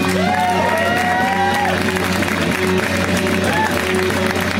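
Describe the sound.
An audience applauds and cheers for a comedian taking the stage, with continuous loud clapping and a few whoops rising above it.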